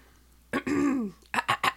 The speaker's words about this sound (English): Let me clear my throat.